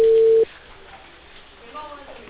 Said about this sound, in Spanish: Estoy llamando a las migraciones, ¿ya? A las validaciones.